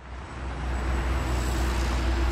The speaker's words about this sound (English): Hear that? That's the sound of traffic moving in Los Angeles. It's becoming a more common sound, not just in L.A., but across the U.S.